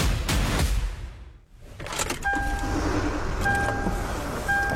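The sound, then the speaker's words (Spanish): Car sounds: a loud mechanical rumble and whoosh briefly drops away, then gives way to a steady engine-like hum with a recurring two-tone electronic chime. “Abrocha y arranca.”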